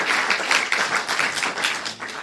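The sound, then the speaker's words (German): Applause from a group: brisk, dense clapping carries on steadily with no voices over it. “Ja, trotzdem einen Applaus.”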